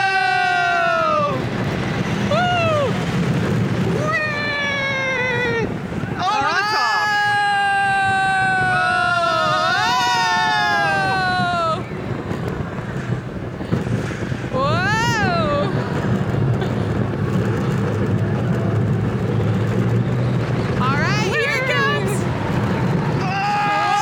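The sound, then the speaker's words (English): California Screamin' roller coaster ride: a continuous rumbling roar of the train on the track, cut by riders' high, wavering screams and whoops in several bursts, with people talking throughout. “So we've got this roller coaster that's coming up here. Yeah. Here we go!”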